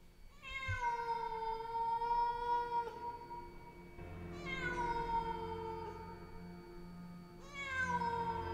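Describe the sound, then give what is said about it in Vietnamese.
A big black cat meows in three long, drawn-out tonal cries, the last one cut off at the end. The meows are moderately loud and stand alone, with no talk. “một con mèo đen láy to đùng bỗng đâu xuất hiện.”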